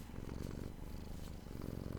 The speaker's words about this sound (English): I got my cat on my lap. I don't know if you can hear her purring.